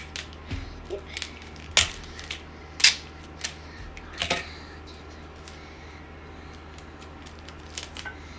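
Scissors cutting tape: a few sharp, faint snips and clicks scattered irregularly over a quiet background.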